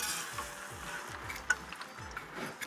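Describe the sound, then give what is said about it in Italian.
Food fries briefly in hot oil with a steady soft sizzle, a few small pops and light stirring clicks rising above the constant hiss. “Allora, li puoi mettere là. Hai visto, proprio un giro molto veloce nell'olio”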